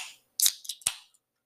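Drink cans popping open make a few crisp, sharp clicks, each followed by a brief hissing burst, then a faint tick at the end.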